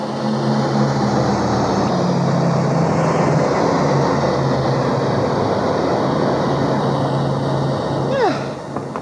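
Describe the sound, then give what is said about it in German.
Flying craft landing in a valley, heard as a steady broad roar over a low droning hum that runs unbroken throughout, with a brief whooshing sweep near the end. “Achtung! Wir landen dort in der Talsenke.”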